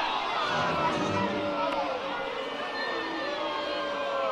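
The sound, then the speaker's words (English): Disapproving crowd noise at a baseball game after a called third strike, a steady mass of voices with drawn-out tones that stays at a fairly even level. “Crowd not a fan of that one.”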